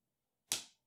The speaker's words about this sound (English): That was me slapping my knee.